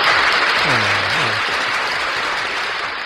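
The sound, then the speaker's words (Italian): An audience applauds with dense, continuous clapping that stays steady and loud throughout. “Radio ZL, alla quale mandiamo anche un applauso per aver scelto di condividere con tutte le altre radio questa trasmissione. All'applauso.”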